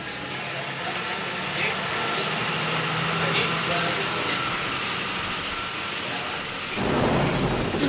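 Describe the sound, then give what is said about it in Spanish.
Thunder during hurricane season: a long, steady low rumble that swells into a louder, fuller burst near the end. “Le asustan los truenos.”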